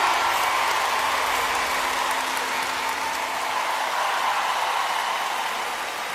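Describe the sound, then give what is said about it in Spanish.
Audience applause fills the whole stretch as a dense, steady wash of clapping at an even, fairly loud level, with no voices standing out. “fuerte el aplauso, che”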